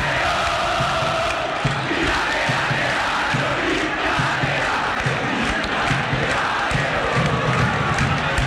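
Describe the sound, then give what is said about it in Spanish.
A football crowd roars and cheers after an Olimpia goal in the Superclásico against Cerro, a dense, unbroken wall of loud cheering and shouting that holds steady throughout. “Hugo Sandoval festeja con el público Olimpia.”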